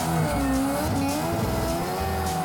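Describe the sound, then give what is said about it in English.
Car tires squeal steadily as the car is thrown into handbrake-entry donuts, with a loud engine drone running underneath for the whole stretch. “First one, we'll just come in, little handbrake entry, do some donuts. A little bit of gas.”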